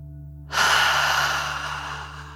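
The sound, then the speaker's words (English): A slow, deep breath drawn during a guided relaxation exercise. It begins after a short quiet pause and continues as one long, airy, soft rush of air to the end, over a low, steady hum. “Relax into the fluffy cloud and breathe like a dragon, in and out.”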